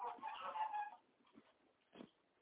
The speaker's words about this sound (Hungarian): Bent van egy nagy kakas. Bent van a fészkön